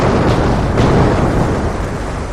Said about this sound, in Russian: Внезапно над морем прокатился грохот слившихся воедино нескольких взрывов, глухих и мощных.